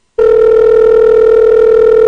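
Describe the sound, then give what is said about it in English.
A telephone rings while a voicemail is being left. After a brief silence a loud, steady single-pitched tone starts abruptly and holds unbroken to the end. “Why is it ringing? Why is it ringing if I'm leaving you a message?”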